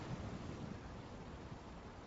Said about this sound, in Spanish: Esos rápidos van increíblemente a prisa. Esa agua de deshielo se dirige al mar.